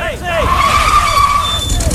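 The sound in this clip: A taxi pulls up with its tyres skidding and squealing, a short, loud, high-pitched burst of scraping tyre noise over a steady engine rumble.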